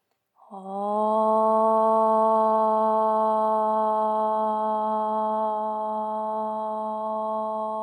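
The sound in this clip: A single om chanted to close a yoga practice: one steady, voiced hum that starts abruptly and holds an even pitch with rich harmonics for about seven seconds, loud and unbroken, easing only slightly toward the end.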